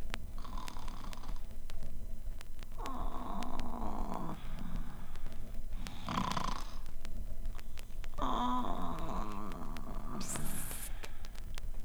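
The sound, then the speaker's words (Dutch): Snoring from a witch asleep in a box-bed, heard as a few drawn-out, rasping snores over a steady background, with a brief higher hiss near the end. “En zelf kroop ze in de bedstee. Even later hoorde je haar snurken.”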